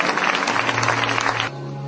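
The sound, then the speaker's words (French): A church audience clapping in praise: a dense, loud burst of clapping that stops abruptly partway through, leaving a low steady hum. “Let us clap to the Lord. Acclamons le Seigneur. Let us clap to the Lord.”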